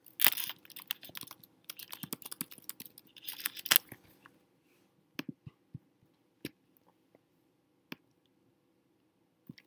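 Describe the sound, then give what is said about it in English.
Typing on a computer keyboard: a rapid, uneven burst of keystrokes lasts about four seconds, then a few isolated key presses follow with gaps of quiet between them. “I'm going to type in your new learning target.”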